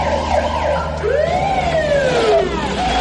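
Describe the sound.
Police car siren wailing as the patrol car arrives, a loud electronic tone that sweeps up and then glides slowly down, with no talk over it.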